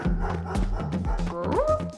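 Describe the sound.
A dog barks while chasing a car, giving a few short, sharp barks in quick succession, then a higher yelping whine that rises in pitch near the end.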